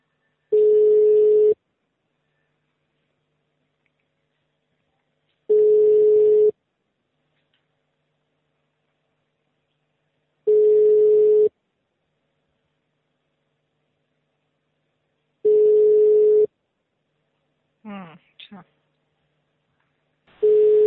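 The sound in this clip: Ringback tones on a telephone line while a call is redialed: five long, steady, low beeps at even intervals of about five seconds, the last one cut short, with a brief warbling burst before it.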